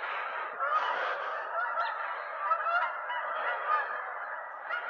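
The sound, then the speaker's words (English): Canada geese honking as a flock flies overhead in V formation, with many overlapping, fairly high honks in a steady continuous chorus and no talk. “These are the Canadian geese flying in formation, in V formation.”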